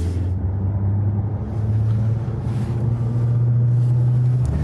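Steady engine drone from a police car driving during a practised pursuit stop manoeuvre, pulling level with another vehicle. A loud, continuous low hum holds throughout with no speech.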